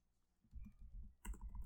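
Typing on a computer keyboard while entering a search: quiet, rapid clicking keystrokes in two short bursts, the second slightly louder, with no talk.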